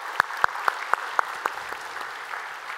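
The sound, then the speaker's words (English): Hands clapping as a church audience welcomes a group to a study session: a brisk, evenly spaced run of about six sharp claps that thins into fainter, scattered claps. “So if you would, put your hands together, welcome them into our time of study here today.”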